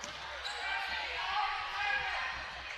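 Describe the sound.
A basketball dribbled on a court during a game, many steady bounces running under loud crowd noise and a talking voice.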